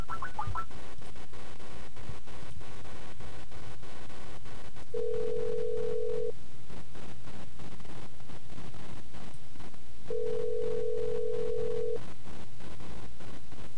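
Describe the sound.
A telephone call to a weather forecast line: faint quick dialing tones at the start, then two long steady ringing tones separated by a pause, over a constant hiss.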